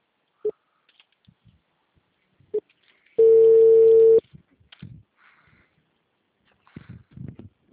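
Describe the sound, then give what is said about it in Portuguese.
A single steady telephone tone lasting about a second sounds while a call is being dialed, clear and mid-pitched, with a few faint clicks and small noises before and after it. “Fazer ligação, né?”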